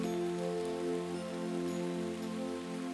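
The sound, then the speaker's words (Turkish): Rain falling as a soft, continuous hiss of many drops on surfaces, fairly quiet and even throughout, with a sustained low tonal drone running beneath it. “Geri gelir fısıldarmış şarkısını yağmur. Bazen hızlanır coşar coşturur, bazen yavaşlar sakinler sakinleştirirmiş yağmurun şarkısı.”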